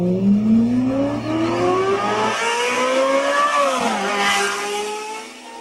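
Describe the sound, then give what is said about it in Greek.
A Ferrari Formula 1 race car engine screams at high revs, its pitch climbing steadily, dipping briefly partway through, then rising again, loud and alone. “Πιο γρήγορο και από Φεράρι στη Φόρμουλα 1.”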